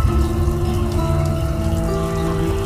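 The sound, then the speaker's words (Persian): Water from a hot shower runs in a bathroom, a steady unbroken hiss and patter of spray with soft tonal sounds beneath and no voices. “حمید رضا توی حموم زیر دوش آب داغ نشسته و توی فکره.”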